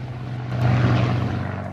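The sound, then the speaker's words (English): A Spitfire's propeller engine roars in a steady low drone as the aircraft takes off and climbs, swelling louder partway through and holding strong to the end. “In the cockpit as the Spitfire takes off, then the plane climbing beneath a blue sky.”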